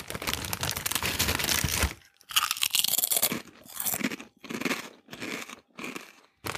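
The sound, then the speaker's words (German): Loud, crackling crunches of potato chips being chewed: a long continuous stretch of crunching, then several shorter bursts separated by brief silences. “ich habe da akustisch was äh, vorbereitet. Passend oh. zur Folge, unheimliche Kartoffelchips.”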